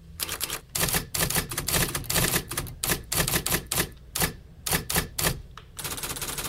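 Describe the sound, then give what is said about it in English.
Virtual typewriter click-clack from a typewriter simulation app on an iPad keyboard, rapid, crisp, loud keystroke clacks in dense runs broken by brief pauses, heard alone. “typewriter simulation app, turning your iPad keyboard into a virtual typewriter. So when you type, you hear the classic evocative click-clack. It sounds like this.”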